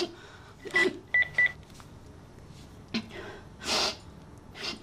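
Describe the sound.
Telephone keypad dialing: a few short, faint electronic beeps in quick succession, amid soft rustling and handling noises.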